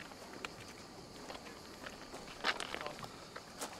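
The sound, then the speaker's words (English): Footsteps of people walking around on a rocky outcrop with children, soft and irregular steps with a few sharper scuffs, faint throughout. “Walking around with the kids.”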